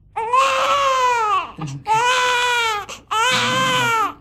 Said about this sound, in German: mein Kleiner. Wer wird denn so laut schreien?